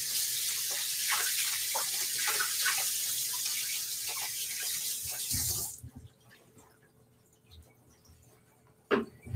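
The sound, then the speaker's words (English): Tap water runs while hands are rinsed during pumpkin scone making, a steady hissing rush for about six seconds that cuts off into near quiet, followed by a single sharp knock near the end. “Let me rinse my hands again.”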